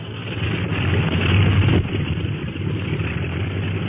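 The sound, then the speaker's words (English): Aircraft engines of a flying boat warming up produce a steady, dense mechanical drone with a low rumbling base, swelling slightly then holding level throughout, with no voices. “Say, they're winding up the clipper motors.”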